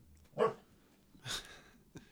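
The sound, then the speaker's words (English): A dog barks a few times, each bark faint and short with pauses between, the last one weaker than the others. “the dog has a lot to say about this.”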